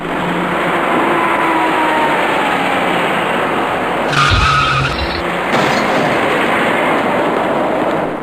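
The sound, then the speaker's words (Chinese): Steady road and engine noise from traffic at an intersection where a dark SUV is turning right, broad and continuous, with a brief louder burst near the middle. “而一些机动车正在这里向右转弯。您注意看一辆开过来的深色越野车。”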